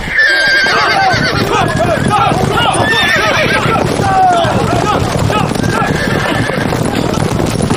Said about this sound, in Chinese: 上马！ 上马！ 好！ 下马！ 火！ 马蹄声起！